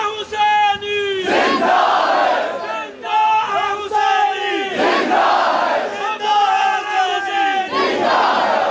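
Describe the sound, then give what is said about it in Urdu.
A crowd chants a religious slogan in honour of a martyr. Loud unison voices repeat the same rhythmic phrase several times in strong, steady cycles. “اس طرح نعرہ لگائیں شہید کی روح آزاد، خوش ہو جائیں۔”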